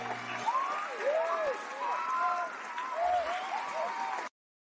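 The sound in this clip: Audience applause welcoming a show host, a dense steady wash of clapping with some cheering voices mixed in, sustained at even loudness for about four seconds before cutting off abruptly.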